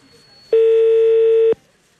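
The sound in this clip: A telephone dial tone: one steady, fairly low electronic tone lasting about a second, starting and stopping abruptly, with near silence around it.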